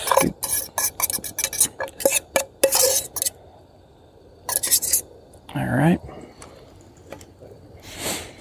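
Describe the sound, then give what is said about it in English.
A spoon stirs meat and spices in a pot, making many quick scrapes and clatters against the metal. The stirring pauses, then a few more scrapes and a last rattle follow. “And now, gotta get this thing stirred up. Some of this meat down in the bottom.”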